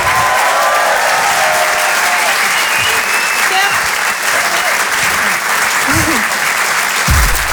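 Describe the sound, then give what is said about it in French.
Loud, sustained audience applause at a comedy club show, a dense, steady wash of clapping that holds at an even level from start to finish. “Faites du bruit s'il vous plaît pour Nash.”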